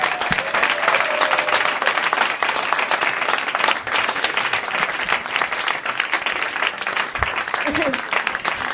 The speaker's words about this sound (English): Put your hands together for Ivan Van Norman!